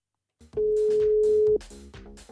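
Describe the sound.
A telephone ringback tone sounds as a call to a radio contest winner rings out: a single steady, mid-pitched tone lasting about a second, with a busier mix of background sound around it.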